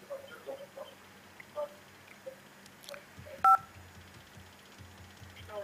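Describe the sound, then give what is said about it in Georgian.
Telephone line tones as a caller's call is put through: a few brief, faint beeps, then one louder short tone, over a low steady hum. “მე გავაგზავნებ კიდე, მაგრამ ჯერ ზარს უპასუხოთ. ზარი ეთერში.”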